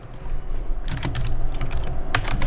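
Typing on a computer keyboard: many quick key clicks in an uneven, busy rhythm over a steady background hiss.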